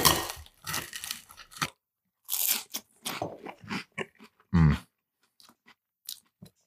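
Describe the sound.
Crunching bites and chewing while eating a breakfast of tomato sauce and eggs: several bursts of crisp crunches separated by short pauses, with fainter clicks and mouth sounds in between.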